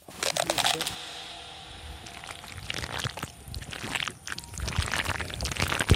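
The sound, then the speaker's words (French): Sticky, fermenting cocoa beans being stirred and turned, a dense wet squelching and rustling that swells and fades irregularly throughout. “Là, vous êtes en train de brasser les fèves toutes gluantes.”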